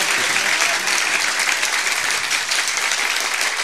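Wedding guests clapping their hands together, a dense, continuous burst of applause from a crowd that stays steady and fairly loud throughout, with no voices standing out.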